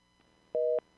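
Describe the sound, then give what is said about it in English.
Telephone busy signal: short, steady electronic tone bursts repeat with even silent gaps between them. “Busy signal. What is going on here? It's busy. His phone's busy.”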